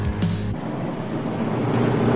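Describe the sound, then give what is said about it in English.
A metallic green car cruises along an open highway, its steady engine and road rumble forming an even, broad wash of noise that stays constant throughout. “Now, sunlight glints on the metallic green bodywork as the car cruises along the open highway.”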